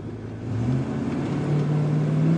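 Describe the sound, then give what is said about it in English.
The engine of a 1993 Ford F-250 pickup truck revs in a low, steady drone. Its pitch rises gradually a couple of times. “That very masculine sound you hear is Dutch's truck.”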